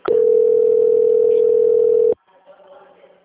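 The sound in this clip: Telephone transfer tone during a bank call being passed to a quality control team. A single steady mid-pitched tone holds for about two seconds, then cuts off abruptly, leaving faint line noise.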